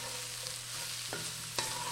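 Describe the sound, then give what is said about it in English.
Faint sizzling of ginger and jalapeno pepper cooking in a pan, with a steady low hum and two soft scraping clicks from stirring. “add ginger and jalapeno pepper and cook, stirring.”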